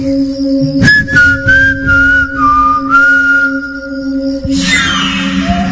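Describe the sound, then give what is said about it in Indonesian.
A person whistles a wavering, fairly high melody in several connected phrases, clear and loud, over a steady low hum. “Aku coba kembali bersiul.”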